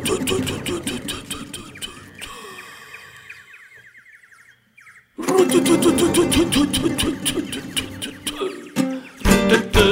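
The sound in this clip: A tractor engine runs with a steady, pulsing chug over a noisy background. It settles into a quieter stretch midway, drops out briefly, then returns louder and rougher to the end.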